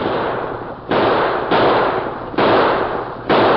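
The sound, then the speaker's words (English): Gunshots fired into the air during a staged holdup of a stagecoach, heard as loud, harsh bursts of noise. A few abrupt blasts follow one another at uneven intervals, each leaving a dense wash of sound. “The masked man and Tonto raced up to the stage, firing shots into the air.”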